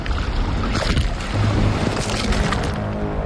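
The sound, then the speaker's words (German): Muffled sea water heard underwater at the coast of Rügen: a steady, dense rushing and churning wash that stays loud and even throughout, with soft low rumbling underneath. “So habt ihr auch mal einen Eindruck. Das klingt so, als wäre er gerade untergetaucht.”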